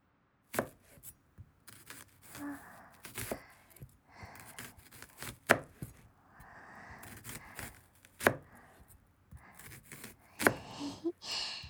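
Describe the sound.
A knife chopping crisp raw onion for cooking: many quiet, sharp, crunchy cuts in an irregular rhythm, some louder than others, with no talk.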